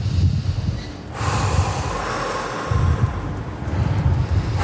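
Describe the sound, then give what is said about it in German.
Deep breaths drawn in and out by someone standing at the edge of a drop with the railing gone, a few heavy, snorting breaths over steady rumbling wind noise. “Am besten mehrfach jetzt tief ein- und ausatmen.”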